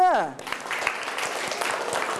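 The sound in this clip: Students applauding in a classroom, a brisk crackle of many claps after a brief tonal sound at the start, with talk heard over the clapping.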